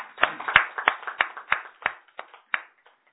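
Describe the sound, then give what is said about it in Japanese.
Hand claps of applause for birthday wishes come as a steady series of sharp, evenly spaced claps, each one crisp and distinct, thinning out and fading toward the end. “盛大な拍手でお願いします”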